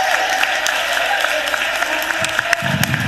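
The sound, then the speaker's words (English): Standing ovation applause for a national championship football coach: dense, steady clapping from many hands that holds at an even loudness throughout. “The standing ovation is very heartfelt, very warming.”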